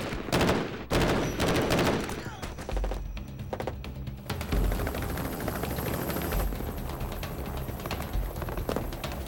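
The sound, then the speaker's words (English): Gunfire in a film shootout, with two shooters firing from different angles at the same man: dense, loud, overlapping volleys of shots that continue almost without a break. “And right now, it's exactly what I'm talking about, where Gina, from one position, and Crockett from a more divergent angle, both fire on the same guy.”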